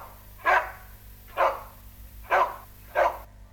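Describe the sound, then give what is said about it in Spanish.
A dog barks four times in an evenly spaced series. Each bark is a short, loud burst standing out over a low, steady background hum. “¡Perro!”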